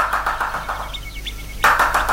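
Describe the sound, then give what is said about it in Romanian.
A woodpecker pecks into a tree hollow in quick, rhythmic knocking runs. A quieter gap follows, then a louder burst of rapid taps. “Nu, e o ciocănitoare care scobește într-o scorbură.”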